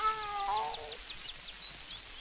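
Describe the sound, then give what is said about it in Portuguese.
A tabby cat meowing in a yard: one faint, drawn-out meow at the start, then a quiet, steady background with no further calls. “Um gato malhado passeia no quintal.”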